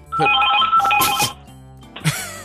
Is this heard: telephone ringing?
yes